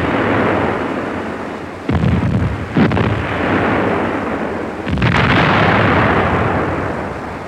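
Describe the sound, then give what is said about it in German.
Naval gun salvos from a German warship firing on a large armed steamer: loud, heavy booming blasts over a continuous thunderous roar, with a few sharp fresh onsets as new salvos go off. “Mit ein paar wohlgezielten Salven wird das Schiff unter Feuer genommen.”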